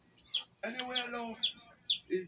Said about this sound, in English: I need to check my chicks too.